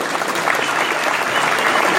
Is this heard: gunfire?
no